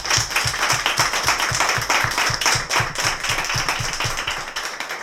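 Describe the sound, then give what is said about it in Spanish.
Applause for the teachers and staff of an institute: a dense, fairly loud burst of clapping with a steady pulsing beat beneath it, dropping away near the end. “a mí no me queda más que pedir un aplauso un poco para todas las profesoras y toda la gente del instituto”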